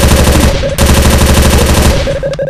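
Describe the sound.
Machine gun fire from an MG4 in a video game: loud, rapid, continuous bursts of shots with one brief break partway through before the firing resumes.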